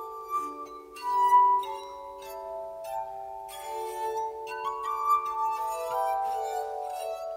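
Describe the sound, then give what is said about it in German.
Glass harmonica played by touching a moistened finger to the rims of rotating glasses, turned by a foot pedal, with the glasses laid side by side like piano keys. Pure, sustained, overlapping tones form a slow melody of many notes, with faint airy rubbing above. “bringt er die Gläserwalze dazu, sich um die eigene Achse zu drehen. Jetzt muss er nur noch mit dem angefeuchteten Finger die sich drehenden Glasränder berühren.”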